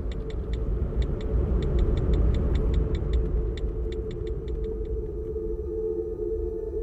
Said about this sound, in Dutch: Ik anders nog maar even een rondje rijden.